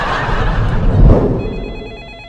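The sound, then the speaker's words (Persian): A telephone rings, its high electronic tones starting partway through over a steady noisy background. “میدونم تلفنه، دارم میشنفم صداشو.”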